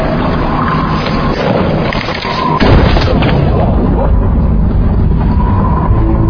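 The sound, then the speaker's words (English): A gunshot: one heavy, booming crack partway through, set in a loud, dense rumbling background. “You're not dead. No. He shot me. It didn't work.”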